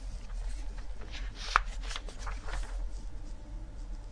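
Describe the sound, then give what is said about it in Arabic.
Pages of a Bible turning to the Gospel of Luke, a soft papery rustling with one sharper flick midway, faint and continuous. “لما نفتح انجيل لوقا”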